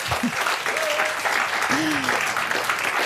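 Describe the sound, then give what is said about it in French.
Live audience applause at the Le Livre sur les quais book festival in Morges: dense, steady clapping that holds at an even level from start to finish. “On est en direct du livre sur les quais à Morges. Si, je vous assure, entendez le public.”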